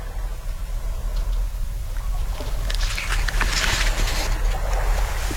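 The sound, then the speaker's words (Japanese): Ocean waves washing onto the shore of Hateruma Island, with wind through pandan trees: a steady, soft rushing hiss that swells into a brighter, louder wash midway before settling again. “波照間島の波の音とアダンの風”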